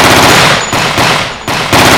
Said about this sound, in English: I slid the AR off my shoulder and opened fire.